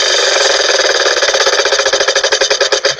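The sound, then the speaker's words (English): A prize wheel spins with a loud run of rapid ratcheting clicks. The clicks gradually space out and slow toward the end as the wheel winds down, with no other sound. “And we're going to spin the wheel of languages one more time. Let's find out where it's going to take us.”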